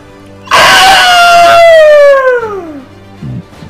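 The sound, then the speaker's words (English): Ear-piercing screech of a giant flying bird: one loud, harsh harmonic cry that holds steady, then slides smoothly downward in pitch as it fades, followed by a short, lower sound. “And the rock stumbles a little bit in its flight, catches itself, and again that ear-piercing screech.”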